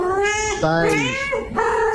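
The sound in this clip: Cat meowing in a few drawn-out, wavering harmonic calls whose pitch bends up and down, fairly loud and continuous across the short stretch.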